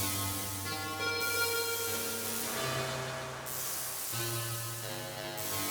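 A sped-up synthesizer patch runs through a ratchet-like gate-repeat algorithm, producing faint, buzzy sustained tones. The notes shift a few times across the passage.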